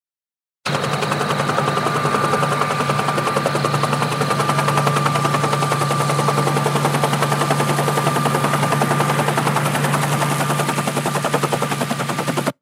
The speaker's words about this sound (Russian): Меня разбудил рев подлетающего вертолета.